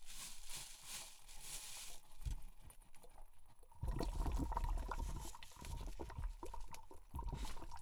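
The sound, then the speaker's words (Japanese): Hot water bubbles and gurgles as it rises in a coffee siphon with ground coffee, a soft continuous churning that grows louder about halfway through, with no talk. “お湯が上に上がってくるとコーヒー粉浮いてくるでしょ。”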